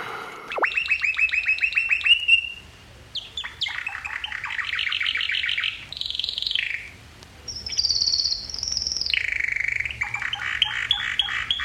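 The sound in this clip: A man whistles an imitation of a nightingale's song: several phrases of high, varied trills and chirps with short pauses between them. Pitch jumps from phrase to phrase, with no talking.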